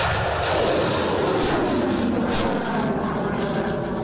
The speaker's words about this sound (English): That's the sound of anti-ship missiles being fired by Japanese units participating in the exercise.